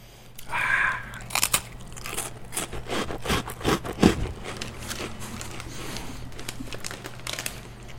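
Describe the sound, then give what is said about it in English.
Someone chewing a cracker makes many irregular crisp crunches and crackles, loudest in the first half, over a steady low hum. “Tastes good. You've eaten almost a whole cracker now.”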